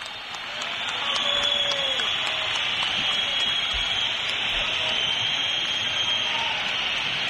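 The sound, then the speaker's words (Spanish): A stadium crowd whistles in protest at the end of a football match, a dense, shrill, sustained wall of whistling mixed with a broad roar that stays loud and unbroken throughout. “Fuerte pitada, no, no, fuerte está pitada.”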